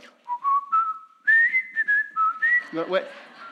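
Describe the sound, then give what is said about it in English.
A person whistles a television theme song, a loud, clear tune of held and sliding notes with a steady, bouncy rhythm. “if I started whistling and,”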